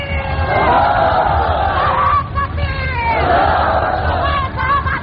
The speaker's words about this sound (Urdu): دوستو خیریت، بس بس کر نعروں میں بس ضائع نہ کیجیے، وقت ویسے بھی کم ہے.